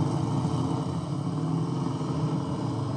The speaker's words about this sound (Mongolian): Хой болгоомжлоорой, машин ирж байна шүү.